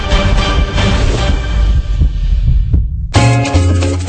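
A heartbeat sound effect gives low, throbbing pulses under a loud, dense tonal backing. The backing drops out abruptly for a moment near the end, then resumes.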